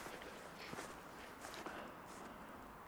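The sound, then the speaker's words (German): Faint footsteps crunch across a snowy field. A few soft steps fall at a walking pace over a low outdoor hiss. “Ich laufe quer über das Feld.”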